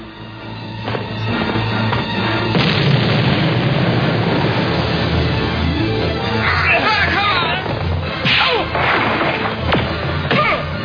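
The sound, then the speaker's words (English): Gunfire and explosions in a battle scene, where people are shooting and things blow up. Dense, loud, continuous crashes, thuds and sharp cracks pile up over one another with no break. “They keep shooting! We all blow up!”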